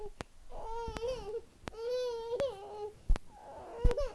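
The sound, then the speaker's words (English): A baby fusses and whimpers during a diaper change in three wavering, tonal cries with brief sharp clicks between them; the sound is fairly faint. “Why you fussing at mama?”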